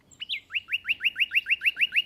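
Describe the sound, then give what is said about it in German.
Male nightingales singing in a hedge on a spring evening: a high opening note, then a fast, even run of many bright, identical chirps repeated in a steady rhythm, clear and alone. “In der Hecke geben die Nachtigallenmännchen alles im Sangeswettstreit um die Weibchen.”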